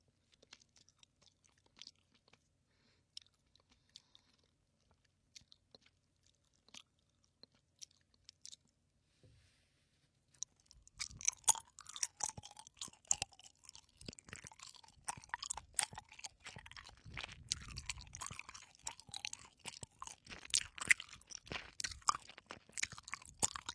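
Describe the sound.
Soft gummy candy being chewed in close detail, with wet, sticky, squishing bites. The first half is near silent with only faint scattered mouth sounds, then the chewing turns loud and continuous for the rest, with many rapid bites.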